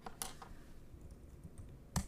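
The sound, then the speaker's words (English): Typing on a computer keyboard while reviewing written notes: a few faint, sparse clicks of keystrokes, spaced apart, with no talk. “there's some typing ASMR for you”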